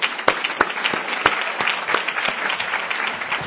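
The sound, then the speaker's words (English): Audience applause greeting an announcement of a large health funding commitment, a steady, dense patter of many hands clapping at an even level throughout, with a few sharper individual claps standing out. “So let's hear it for Norway and the Netherlands.”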